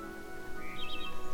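Birds sing at a bird park: a few faint, high chirps flutter briefly over a steady low background hum.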